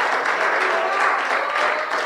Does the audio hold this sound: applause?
yes

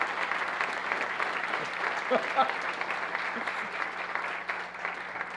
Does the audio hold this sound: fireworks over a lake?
no

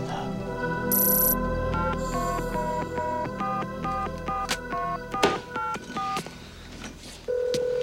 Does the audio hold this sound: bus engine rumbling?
no

